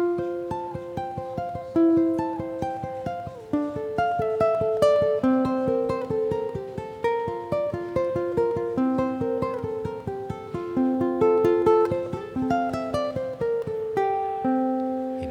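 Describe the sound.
A ukulele plays a steady stream of plucked notes, each on a different string, so the tones ring on and overlap into a shimmering, harp-like blend of mid and high pitches with no voices.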